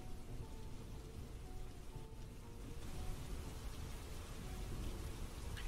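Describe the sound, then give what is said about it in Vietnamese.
Steady rain falls outside and is heard faintly from inside a house with every door and window shut, a soft, continuous hiss of drops with no voices. “Chỉ còn loáng thoáng nghe tiếng mưa ở bên ngoài lại làm cho con người ta dễ ngủ.”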